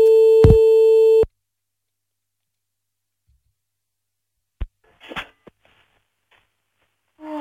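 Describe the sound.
A telephone line tone plays when placing a call: one steady, buzzing tone that holds for about a second and then cuts off abruptly. Near-silence follows, broken by a few faint clicks and rustles.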